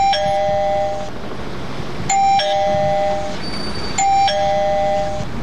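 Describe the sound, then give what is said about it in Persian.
A battery-powered doorbell rings at a front gate: three evenly spaced bright electronic chimes, each a clear two-note ding that rings out briefly over a low background rumble, with no voices. “وی راستی اینا زنگ دارن.”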